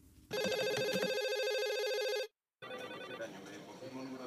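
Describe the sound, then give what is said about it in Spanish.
Telephone ringing at the switchboard of an Andalusian health emergency call centre: one sustained electronic ring, a brief silence, then a person talking. “una llamada entró a la centralita del Servicio de Emergencia Sanitaria 112 de Andalucía”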